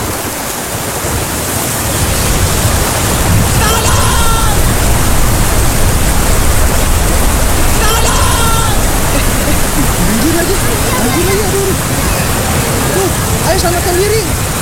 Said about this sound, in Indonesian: Duh guys, hujan lagi gimana dong? Iya hujan ya.